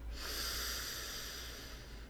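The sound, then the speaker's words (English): A deep breath drawn in through the nose, a soft, airy inhale that stays smooth and steady for about two seconds. “So we're going to take a deep breath in through our nose”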